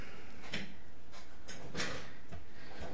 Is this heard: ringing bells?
no